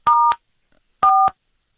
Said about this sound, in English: What's with the buttons that are pressing here?